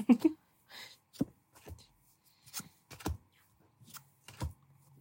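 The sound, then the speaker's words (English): Playing cards flipped over during a tabletop card game: a few short, dry snaps and taps spread across the moment, with quiet gaps between them. “This is the game with cards. Let me flip.”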